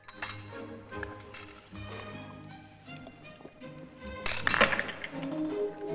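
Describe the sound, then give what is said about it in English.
A metal spoon banging against a teacup, giving a few sharp, bright clinks at irregular intervals, with quieter knocks and clatter between them. “After banging the cup with his spoon, he slurps the tea down in one and gets his finger caught in the handle.”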